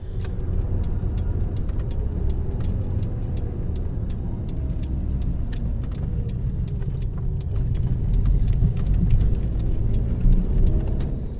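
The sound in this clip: A taxi drives along a bumpy road, its engine a steady low rumble throughout. Many small clicks and rattles from the cabin are scattered across the ride.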